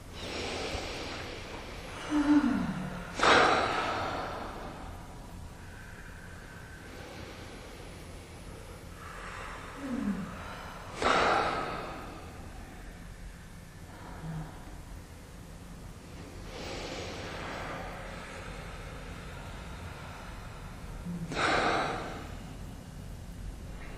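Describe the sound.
Slow, deep breaths in and out during a mindfulness exercise: a few audible breathing cycles, each a sharp, rushing inhale followed by a longer sighing exhale, with quiet pauses between them.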